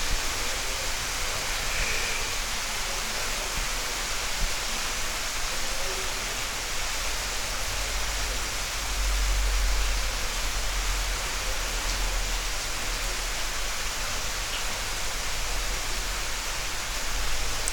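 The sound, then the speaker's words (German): Rain falls in a steady, even hiss, a dense wash of fine patter with no distinct drops or pauses, holding the same moderate level from start to finish. “Also wieder ein schöner, regenreicher Tag.”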